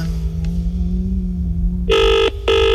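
A telephone rings with an electronic, buzzy trill in two loud bursts separated by a brief gap. A low steady hum plays before the ringing starts.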